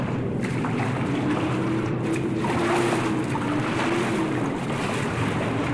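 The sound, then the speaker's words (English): Water washes steadily around a boat being paddled after a bull, under a constant rush of wind noise. The wash stays even throughout, with no separate paddle strokes standing out. “And paddle after them.”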